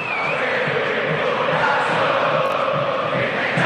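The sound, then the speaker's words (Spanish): River Plate supporters roar inside the Monumental stadium on a Wednesday night before a match against Gimnasia y Esgrima La Plata. The crowd noise is a loud, unbroken wash of massed voices. “Esta es la banda sonora del miércoles por la noche. ¿Qué merece esta hinchada? El público de River.”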